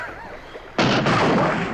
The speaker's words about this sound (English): Shoot one of those sharks. It'll keep the others occupied.